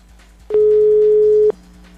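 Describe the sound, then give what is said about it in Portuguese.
A telephone line tone while a call is being placed: one steady mid-pitched beep lasting about a second, loud against a quiet, humming line before and after. “Devo estar ligando para Jundiaí agora, eu acho. Nem sei para quem eu tô ligando.”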